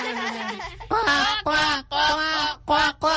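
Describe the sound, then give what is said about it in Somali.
A human voice imitates the call of a pet bird with several loud, nasal, honking squawks in quick succession, separated by short gaps. “Aniguna waan jeclahay, maadaama aan jeclahay shimbirtaydana, bal aan mar kale codkeeda oo kale sameeyo.”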